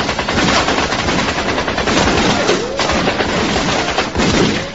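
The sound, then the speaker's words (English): Guns firing blanks during a filmed action scene produce dense, rapid bursts of automatic fire, loud and nearly continuous for several seconds with a rattling, crackling texture. “these things are firing blanks”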